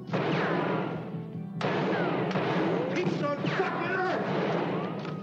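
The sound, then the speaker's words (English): Gunshots ring out as a few sharp cracks within a dense, noisy mix of sound, with voices talking underneath. “That's six shots, Whistler.”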